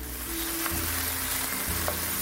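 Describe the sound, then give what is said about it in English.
Tomatoes sizzle in a pan as they are stirred and cook down into a reddish base. The frying hiss is steady and moderately loud throughout, with a faint low hum beneath it. “Oh yeah, I've been stirring this whole time because you do want to move them around a little bit. And the tomatoes are definitely broken down.”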